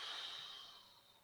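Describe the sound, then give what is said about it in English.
A deep breath drawn in: a breathy hiss that starts strong and fades steadily over about a second, with no other sound. “Take a breath.”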